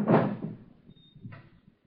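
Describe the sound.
A drawer being pulled open in a tense dramatic scene: a loud scraping thud at the start fades out, followed by a second, softer rattle about a second later.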